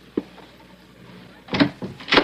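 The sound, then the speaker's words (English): A door being opened in a house as someone comes in: a single sharp click, a quiet stretch, then a cluster of louder rattling, scraping bursts near the end, with no voices. “Wait till he opens the door.”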